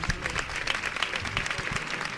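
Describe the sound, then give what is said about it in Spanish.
A large street crowd applauds during a religious procession, a dense, continuous patter of clapping held at a moderate level. “El aplauso de la mucha gente que hay aquí.”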